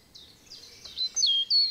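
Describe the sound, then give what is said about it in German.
Birdsong in an old beech and linden forest in a national park in Thuringia: a few thin, high chirps and short whistled phrases, starting soft and growing louder toward the end, heard alone over a quiet background. “Es riecht nach Wald, die Vögel singen ihr Lied, über den Köpfen rauschen die Blätter der alten Buchen und Linden.”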